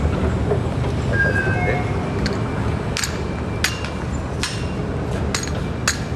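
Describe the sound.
Metro turnstiles clicking at a transit-card exit gate: several sharp, irregular clicks over a steady rumble of station noise.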